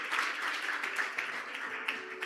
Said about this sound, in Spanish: Dese un aplauso porque está pendiente a la red del pastor.